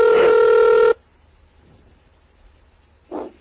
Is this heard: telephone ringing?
yes